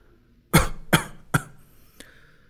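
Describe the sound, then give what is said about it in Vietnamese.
Three dry, harsh coughs from an old palace eunuch come in quick succession, each a sharp burst that fades, followed by a faint click after a short pause. “Lão thái giám liên tục ho khan, áp chế cuống họng nói.”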